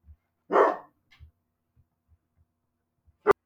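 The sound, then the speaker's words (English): A dog gives one loud, short bark, followed by near silence with a few faint low thumps and a sharp click at the end. “Sorry about my doggo.”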